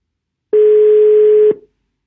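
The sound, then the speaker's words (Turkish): A telephone ringing tone heard while a call is placed: one steady, mid-pitched electronic tone lasting about a second, loud and clean, alone before and after. “Bugün Ezgi'yi arıyorum.”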